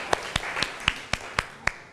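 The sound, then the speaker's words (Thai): Classmates in a classroom clap in unison, eight sharp, evenly spaced claps in a steady rhythm over a quiet background. “ปรบมือให้เพื่อนหน่อยค่ะถูกต้องเลยค่ะ”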